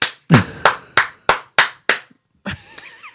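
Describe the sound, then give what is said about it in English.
One person clapping hands alone, giving a single-person round of applause: loud, separate, evenly spaced claps at a slow, deliberate rhythm, each ringing briefly, then a short mixed burst at the end. “And this meanwhile, giving her the one man applause.”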